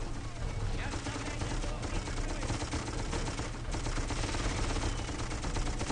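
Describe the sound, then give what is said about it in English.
Continuous rapid gunfire from an overheating gun in an Xbox 360 video game: a dense, steady barrage with no clear gaps between shots, holding at an even loudness throughout. “So is that an indicator that your gun's overheating? Yes, it is.”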